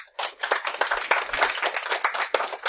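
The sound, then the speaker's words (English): A studio audience applauds during a panel quiz show, a dense burst of clapping that starts abruptly after a brief gap and holds at a fairly even level until the end. “Applaud if you think that's a fiction.”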